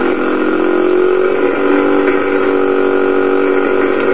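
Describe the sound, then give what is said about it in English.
Small electric motor spinning on high-voltage energy harvested from air ions through a spark-gap circuit: a loud, continuous whine with buzzy overtones, its pitch holding nearly level throughout. “The sound you hear is the pulse of the spark gap. The motor is now connected to the circuit, and it spins.”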